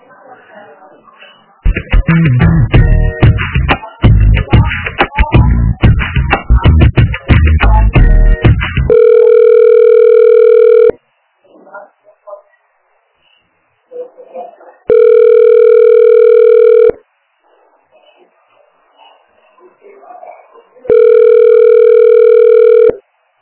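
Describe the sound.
Telephone ringback tones sound while a call is being transferred: three steady, even-pitched ring bursts of about two seconds each, separated by quiet gaps, after a dense stretch of other louder sound.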